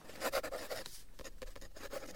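A pen or pencil scratches across paper while drawing, a quiet run of many quick, rhythmic scraping strokes with short pauses between them.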